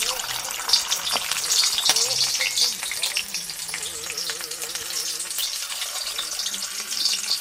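Battered shrimp frying in hot oil: a dense, continuous sizzle with crackling pops running throughout at a steady, moderate level, with no talk.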